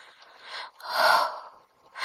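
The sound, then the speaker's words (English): Aroused, breathy respiration: a soft breath, then a longer, louder gasping exhale, with another breath starting at the end; no words. “My breathing is quickening.”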